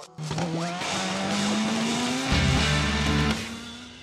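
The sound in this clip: An Indycar jingle with racing car sounds: a loud, engine-like drone climbs slowly in pitch, a brief burst of layered tones breaks in midway, and then the drone carries on.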